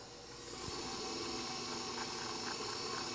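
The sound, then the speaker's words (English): An electric mixer creams room-temperature butter with powdered sugar, a steady low whirring hum that swells in after about half a second and then holds even and fairly quiet. “So I'm going to put that on the mixer. And since my butter is nicely at room temperature, it's going to cream pretty quickly.”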